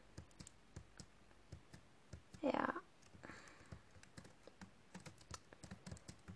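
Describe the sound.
Typing a story on a computer keyboard: many soft, irregular key clicks at a quiet level, broken by one short, louder burst partway through.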